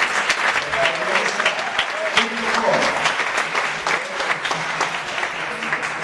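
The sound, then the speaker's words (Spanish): Audience applause at a spiritual lecture on vegetarian eating: sustained, fairly loud clapping with sharp individual claps standing out, and some voices mixed in beneath it throughout. “Entonces se merece un muy buen aplauso para la página.”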